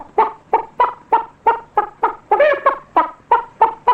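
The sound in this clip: Chickens and other fowl cluck across a henhouse in the afternoon. About a dozen sharp, evenly spaced clucks repeat at a steady rhythm, with a brief louder, more tonal squawk in the middle. No talk is heard.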